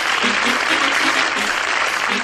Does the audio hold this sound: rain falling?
no